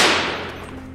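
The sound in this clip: A single gunshot, a loud sharp blast that decays slowly into a rumbling tail over about a second.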